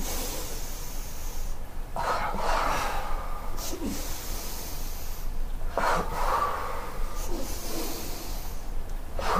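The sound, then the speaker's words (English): Breaths in a kneeling breathing exercise, with a few forceful, breathy rushes of air rising over a steady low background hum. No voices are heard. “Okay, so you inhale and then double breath out. Inhale.”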